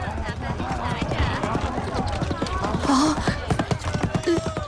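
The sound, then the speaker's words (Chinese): Hooves of a galloping horse-drawn carriage: rapid, steady clip-clop beats run throughout, with people talking over them. “一骑马车飞奔而来”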